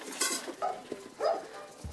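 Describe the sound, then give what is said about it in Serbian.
Food being tipped into cooking pots for young animals gives a few light metallic clinks and scrapes, quiet and spaced apart, with no talk. “Ajde sad u one dve šerpe stavite za ove male. I u drugu šerpu im stavite.”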